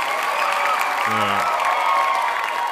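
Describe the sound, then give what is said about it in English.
Studio audience applause, a dense, steady wash of clapping mixed with crowd cheering that holds at an even, fairly loud level throughout. “Studio audience agrees.”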